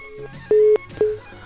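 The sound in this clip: Telephone line beeping as a caller drops off a call-in line: two clear mid-pitched tones, the first held longer and the second shorter and clipped, separated by a brief gap.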